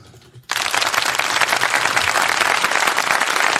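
Applause at an awards ceremony for football prizes. After a brief quiet moment, dense, steady clapping from many hands bursts in and holds at an even, loud level to the end.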